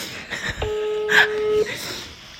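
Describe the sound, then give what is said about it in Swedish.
A telephone being dialed to make a call gives one steady electronic tone of about a second, with voices talking before and after it. “Måste ringa mamma. Och fråga om det är normalt att vilja penetrera sig själv med en delikatoboll.”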